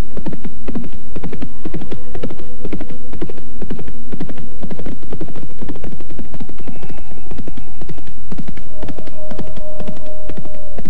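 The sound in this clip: A horse runs with rapid, loud clip-clopping hoofbeats in a steady driving rhythm for the whole stretch, over a low continuous hum.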